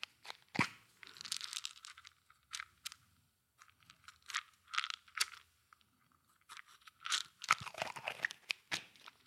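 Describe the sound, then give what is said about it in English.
Crunching and chewing of Adderall pills, crisp and close, in many irregular bursts of crackling bites separated by short pauses, with no talking. “Would you like some Adderall ASMR?”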